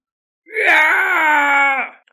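An agonized scream of pain from a dragon-headed ancient king whose finger has just been snapped off: one long, harmonic, wailing cry lasting over a second, holding steady and loud before fading away.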